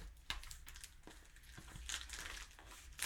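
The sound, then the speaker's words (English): Packing tape being cut open while a package is unwrapped makes faint crinkling and rustling throughout, with a few sharper crackles. “Well, that way they know we're unwrapping things here. I'm cutting open the tape. Re-cutting open the tape.”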